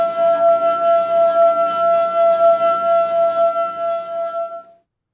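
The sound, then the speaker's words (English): A wet finger circles the rim of a water-filled glass, drawing out a steady, pure ringing tone with faint overtones. The tone holds evenly for several seconds, then cuts off near the end. “And she touched her finger into the water. And then she took her finger and traced the edge of the circle of the top of the glass until it made that ringing noise.”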